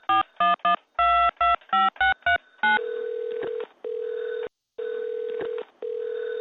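A telephone number is dialed to a taxi service: a quick series of about nine short keypad tones, then a steady ringback tone repeating in long pulses with a brief gap, heard alone without talk.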